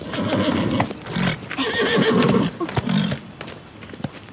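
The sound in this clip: A horse neighs loudly in a drawn-out, shrill whinny with snorting, and hooves clip-clop through it.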